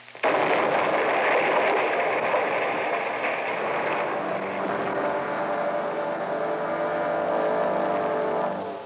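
A thrown bottle of nitroglycerin explodes and wrecks a cottage: a sudden loud blast that opens into a dense, sustained roar and rumble, staying loud for several seconds before tailing off at the end.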